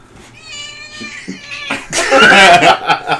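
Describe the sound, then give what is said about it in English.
A person's voice imitates a cat's meowing, with a drawn-out, nasal meow that swells into a louder, strained, yowling cry. “The cat kind of sounds like this.”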